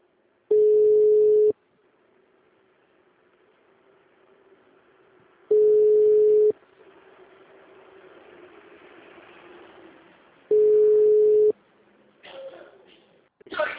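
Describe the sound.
Ringback tone plays while a telephone call connects: three steady one-second mid-pitched tones spaced about five seconds apart, with faint background hiss between them and a brief burst of noise at the very end.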